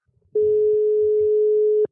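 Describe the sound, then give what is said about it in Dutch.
A phone's calling tone sounds after the call button is pressed: a single long, steady mid-pitched beep of about one and a half seconds, loud and alone, following a few faint low clicks. “Dan druk ik zo op de belknop.”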